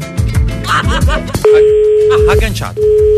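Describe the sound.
A telephone busy tone after the caller hangs up during a radio phone-in: a steady electronic tone sounds in long pulses with a short gap between them, and a voice talks over the moments before it begins.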